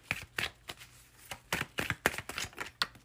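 Playing cards shuffled and drawn for a card reading: many quick papery riffles and soft slaps in irregular bursts, fairly faint and with no voice over them.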